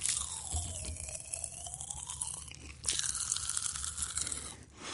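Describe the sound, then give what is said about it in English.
Strawberry popping candy crystals crackling while being chewed: faint, irregular tiny pops and snaps scattered over a soft background, with a few sharper clicks. “I'm just going to pop some in my mouth and see what happens, see if it does indeed pop.”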